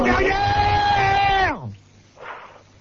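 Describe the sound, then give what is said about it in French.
A man yelling loudly into a microphone: one sustained, strained shout of about a second and a half that cuts off abruptly, followed by a brief faint sound. “je te remercie de gueuler dans mes oreilles”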